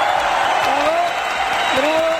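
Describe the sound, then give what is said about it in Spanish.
Steady applause from an audience fills the whole stretch, with a speaking voice running over the clapping. “Este aplauso es para él.”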